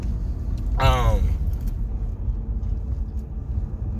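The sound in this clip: Low engine and road rumble from inside a car driving past a burning house in Warsaw, steady throughout, with a voice briefly heard near the start.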